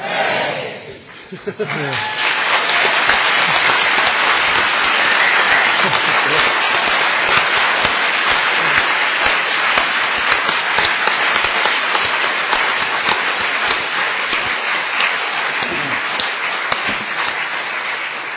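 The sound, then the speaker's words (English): Hall audience cheering and then applauding rapturously in honour of newly ordained nuns: a short burst of voices gives way to dense, continuous clapping that stays loud for many seconds. “It's not that often that our hall gets filled with rapturous applause like that, but this is certainly an occasion where it's well worthwhile.”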